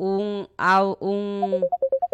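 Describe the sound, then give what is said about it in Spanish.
A WhatsApp incoming-call ringtone sounds as a quick run of short, bright beeps that alternate slightly in pitch, following a stretch of a voice. “tenemos por acá una llamada de WhatsApp, pero no se logra.”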